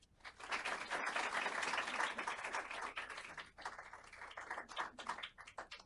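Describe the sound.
Audience applause welcomes two speakers at a Heritage Foundation event co-sponsored with the National Review Institute: a dense, steady clapping that swells in the first couple of seconds, then thins into looser, uneven claps.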